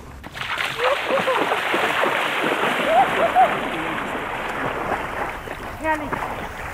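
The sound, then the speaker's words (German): Water splashing and sloshing as someone swims in the Danube at a sand-and-gravel beach in the Donauauen National Park on a hot day, with continuous irregular splashes and a voice now and then. “Also jetzt, wo wir da sind, ich gehe jetzt noch schnell in der Donau schwimmen.”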